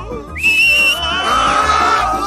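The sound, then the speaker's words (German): A loud, shrill whistle calls a flying broom back. Sharp rising and falling tones slide into a sustained high note, over a low background. “Auf Roxanas Pfiff hin schüttelte der Besen seine Reiter ab und flog zu ihr.”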